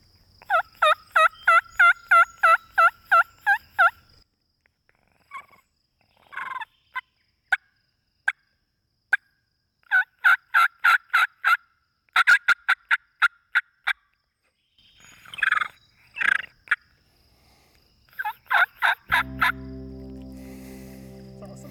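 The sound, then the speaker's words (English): Turkey yelps made with a mouth reed call. A rapid run of raspy, high, evenly spaced notes is followed by scattered single yelps and further quick runs of varied, clucking notes. “so let's hear some. Just a turkey yelp.”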